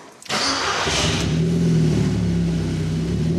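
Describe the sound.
A car engine starts for an informal power test, well short of certification conditions. A sharp onset is followed by a loud, steady, mid-pitched engine drone that holds for about three seconds with no talk.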